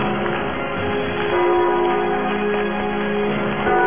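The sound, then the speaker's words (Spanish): Church bells ring with sustained, overlapping tones over a steady low background. The tones swell and linger throughout with no voices. “Son campanas y se oyen cerca.”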